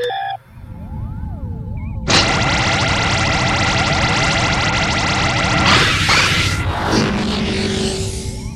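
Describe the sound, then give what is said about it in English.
A sci-fi transfer beam fires to reopen an escape portal, erupting abruptly into a loud, sustained roar of layered energy with ringing tones. Warbling electronic tones come before it, and the surge shifts and breaks up toward the end. “Fire an inner transfer beam. Adjust frequency to match the energy signature of the robot henchman. I want that escape portal reopened. Firing.”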